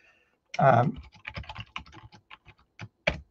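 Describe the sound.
Rapid typing on a computer keyboard while entering code, a dense run of many light, irregular key clicks, opening with a louder thicker burst.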